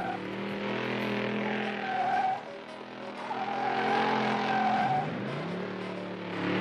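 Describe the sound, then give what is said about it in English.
Car speeding down a steep hill and curving around a big boulder on a narrow track: a loud engine roar with squealing tires, dipping briefly midway and then revving back up. “Shaggy floors it. Here we go, gang! The last leg of the course! They drive down a steep hill and curve around a big boulder on a narrow track.”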